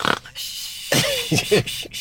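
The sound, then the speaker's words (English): A person imitates a dog's snoring with a few short, rough, nasal snorting bursts separated by quiet gaps, uneven in length and fairly faint. “Blossom, my smallest and babyest dog, snores like I just did right then?”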